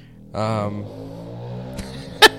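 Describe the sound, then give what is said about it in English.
An ATV four-wheeler drives by, its engine holding a low, steady drone throughout. The sound swells briefly near the start, then settles, with a short sharp spike near the end. “There's literally a guy driving an ATV right by me. Like, thank you. Thank you for driving your four-wheeler right next to where I'm”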